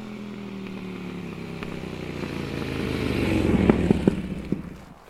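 A motorcycle engine runs with a steady rumble that grows louder, broken by several sharp clattering knocks near the end before the sound drops away.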